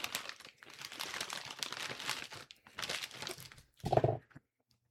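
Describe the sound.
Crinkling and tearing of a Kool-Aid drink mix packet as it is opened, bursts of papery rustle and crackle followed by a brief pause and a sharper rip near the end.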